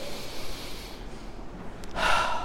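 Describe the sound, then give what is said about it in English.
A deep breath is drawn in as a long, airy, noisy inhalation. It ends with a sharper, louder rush of air, with no talking. “Take a deep breath in.”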